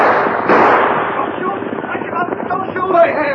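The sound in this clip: Gunshots in a western radio drama about ranchers: a broad, loud blast, then a run of sharp cracks, all mixed under excited shouting voices.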